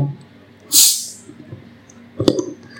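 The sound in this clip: A bottle of carbonated saison-style beer is uncorked with a brief, loud burst of hissing gas. A single sharp click follows a moment later, against quiet background.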